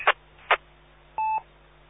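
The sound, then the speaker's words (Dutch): A timer beeps once: two soft taps, then a single short, steady, mid-pitched electronic tone. “En dat was even mijn timer. Toch goed dat hij even piept, want dan weet ik in ieder geval dat ik even de microfoon moet loslaten.”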